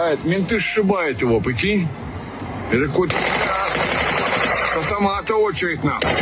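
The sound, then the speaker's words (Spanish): Police gunfire aimed at drones launched from a truck's container, recorded by a bystander in Russia; several sharp shots crack amid voices and a continuous noisy background. “Lo que estás oyendo es a un ciudadano ruso grabando cómo salen esos drones del contenedor del camión y los disparos de la policía tratando de derribarlos claro.”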